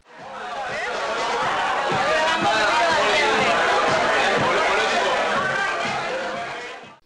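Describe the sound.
Dense crowd chatter fills a venue with a young crowd: a steady babble of many overlapping voices, loud and unbroken for about seven seconds, with no single voice standing out.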